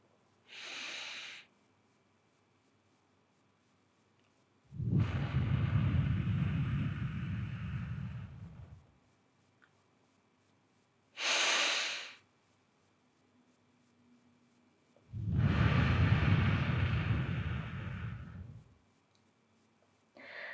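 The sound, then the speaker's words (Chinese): Slow exhales through the mouth during a guided breathing exercise, two soft, breathy outbreaths each lasting about four seconds. Shorter, hissier inhales come between them. The sound is quiet, with no talk. “然后用嘴巴慢慢的呼气，数到五，继续。”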